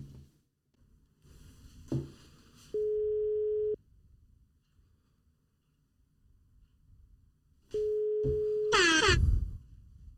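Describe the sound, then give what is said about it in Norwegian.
Two long, steady ringing tones of an outgoing phone call, each lasting about a second and separated by a quiet gap, with a short click before the first ring and a burst of louder sound right after the second. “Skal jeg bare ringe med en gang?”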